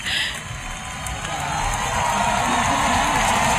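Euphoric audience cheering at a concert, a dense, sustained crowd roar with no gaps that grows slightly louder through the second half.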